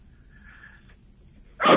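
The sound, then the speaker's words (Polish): A small dog gives one short, loud bark near the end, heard while dumpling dough is being dropped by spoon into a pot of hot water; before it, only a quiet background. “Już momencik, bo mi piesek przeszkadza.”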